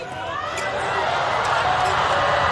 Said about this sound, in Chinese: 球发的不错，巴西队发球直接得分，比分来到5-5。